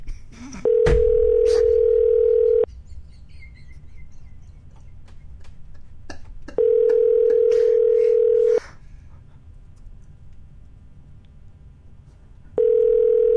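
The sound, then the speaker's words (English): A telephone ringing tone while calling someone: two long, steady pitched tones of about two seconds each, separated by a pause of roughly four seconds, then the start of a third, with near silence between them. “Why don't we get Dan on the line?”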